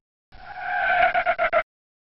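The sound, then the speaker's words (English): Synthesized car sound from an Apple IIGS police video game as a red sports car runs a red light: a sustained, buzzy tonal screech lasting about a second, then a few short, sharp pulses, with no voices. “Did you see the red sports car run the red light?”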